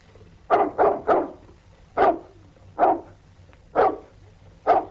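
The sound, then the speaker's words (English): A dog barks seven times: three quick barks in a row, then four more single barks spaced evenly and about a second apart, each loud and clear over a quiet background. “Whose dog's that?”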